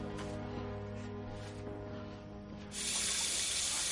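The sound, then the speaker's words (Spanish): Running tap water splashes into a sink as someone washes their face. Quieter trickling and handling sounds come first, then a steady, louder rush of water takes over for the last second or so. “Ya en pijama se lava la cara.”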